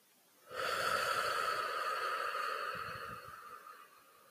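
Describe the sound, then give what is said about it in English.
A deep, drawn-out inhale during a guided breathing exercise: one long, breathy intake that starts abruptly, holds steady for about three seconds, then gently fades. “One, inhale. Two, inhale.”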